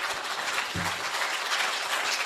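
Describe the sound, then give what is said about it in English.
Audience applause closes a conference session, a steady, dense wash of many hands clapping at even loudness throughout, with no pauses. “All right, let's give these folks another quick round of applause.”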